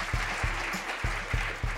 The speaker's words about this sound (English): 122 women, 122 women, you can applaud that.